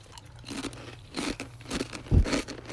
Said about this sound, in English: Oh yeah, I'll eat a Tostito, we'll see.